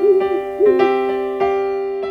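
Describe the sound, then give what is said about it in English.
Owl hooting, two short wavering hoots at the start, set among bright sustained chime-like tones that strike and slowly fade. “Our letters today being delivered by our ever vigilant owl”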